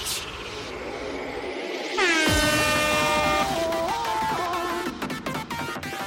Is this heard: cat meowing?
no